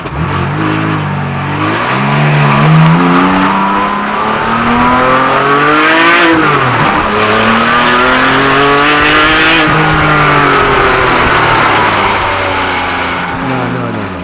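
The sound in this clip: A Porsche race car on the Indy track during a World Challenge event revs loudly and continuously, its engine pitch climbing through the gears. The pitch drops sharply at each upshift before rising again in a sustained, high-pitched roar.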